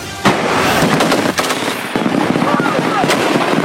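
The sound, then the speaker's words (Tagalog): Rapid, continuous gunfire from army ground forces during a live-fire exercise in Camarines Sur, loud, dense and unbroken, with sharp cracks piling on top of each other. “Sunod-sunod ang pinakawalang putok ng ground forces ng Philippine at Australian Army sa live fire exercise na ito sa Pasakaw, Camarines Sur.”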